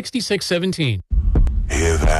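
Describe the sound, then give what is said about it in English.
A heartbeat sound effect for a haunted attraction gives a brief run of deep, muffled throbbing thumps, set between stretches of a person talking. “It's the sound of the deep, dark heart of fear beating just for you.”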